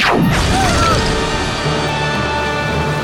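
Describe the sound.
A gun fired out of a window in a sci-fi audio drama: a quick falling whistle-like tone gives way to a loud, heavy crashing blast that roars on steadily.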